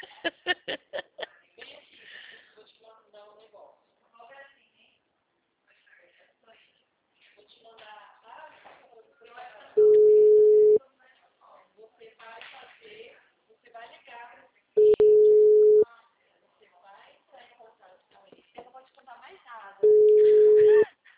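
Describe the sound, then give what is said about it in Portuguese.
A telephone ringback tone sounds three times as a call is placed. Each is a steady, one-second hum, spaced about five seconds apart, with people talking in between. “Aí, ó, eu tô ligando, mas pergunto se eles atendem.”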